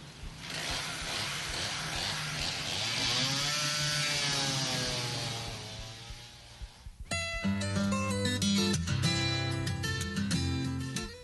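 A chainsaw trims a tree with a sustained buzzing whine whose pitch swells and sags for several seconds, then fades as a different, steadier tonal sound takes over.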